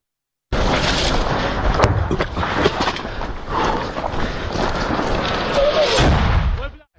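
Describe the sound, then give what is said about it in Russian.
Explosions and gunfire from a border guards' battle in Bakhmut: loud, dense booms and sharp cracks over a constant roar of battle noise, ending in a heavy final burst that fades out. “Это бой пограничников в Бахмуте, и госпогранслужба написала, что продолжался он 3 часа”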